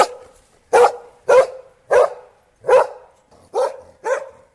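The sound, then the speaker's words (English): A dog barks six times in an even, steady rhythm, each bark short, sharp and mid-pitched with brief silences between. “Obviously, that is a dog.”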